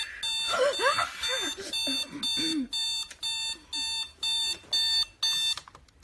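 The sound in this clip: An alarm clock rings with many evenly spaced, shrill beeps in a steady on-off rhythm, while a whining voice is heard over the first few seconds.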